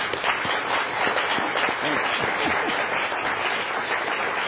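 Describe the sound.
A studio audience applauds the panelists at the close of a discussion evening, with steady, dense clapping at an even level from start to finish.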